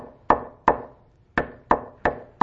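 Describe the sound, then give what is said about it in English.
Knocking on wood: six sharp, hollow raps, two, then a short pause, then four more in a steady rhythm, each fading quickly. “He's knocking. And he ain't going to stop knocking.”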